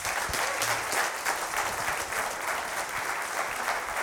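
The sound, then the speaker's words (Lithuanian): Sustained applause from an audience welcoming a basketball commentator onto the stage: dense, steady clapping that holds at an even loudness throughout, with no voices standing out. “Ponios ir ponai, plojimais pasitikime krepšinio komentatorius Vaidas Čiaponis.”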